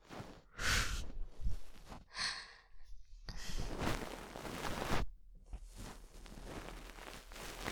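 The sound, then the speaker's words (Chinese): Heavy breathing of a person lying in bed and turning over: several slow, audible breaths and sighs in uneven rhythm, soft and breathy with no talking. “别翻身对着这边啊，你这样呼吸弄得我好难受啊。”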